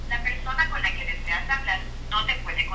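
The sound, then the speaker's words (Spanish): A telephone call plays a recorded no-service message: a voice speaks over the line above a steady low hum. “Dice que no hay servicio ahorita ahí. Bueno, era la hermana Nelly que por ahí nos estaba llamando.”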